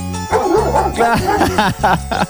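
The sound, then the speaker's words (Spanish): Dogs barking in a quick run of sharp, loud yaps and barks, with many short bursts following closely one after another and no talk over them. “Mirá, están ladrando los perros, escuchá.”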